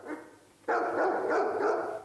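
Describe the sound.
A police dog barking: a quieter opening then a sudden loud burst of rapid, rough barks in quick succession, forming a continuous, pulsing run of barking with no voices.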